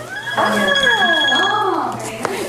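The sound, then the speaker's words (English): Electronic alarm set to mark noon for the Angelus prayer, a steady high tone lasting about a second and a half, heard under overlapping voices. “That's my alarm. That's my alarm for it's noon. It's time to pray the Angelus.”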